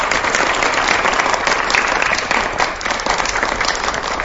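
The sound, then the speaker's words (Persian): Loud crowd applause breaks out on cue: a dense, even clatter of many hands that holds steady throughout and dips slightly near the end. “برای یه خال خالی گوگولی مگولی خودم دست بزنید.”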